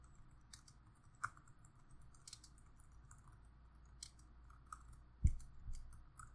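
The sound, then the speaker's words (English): Faint typing on a computer keyboard: sparse, irregular key clicks spread over several seconds, with one sharper, louder tap near the end and no voices. “I'm going to go type that shit right now.”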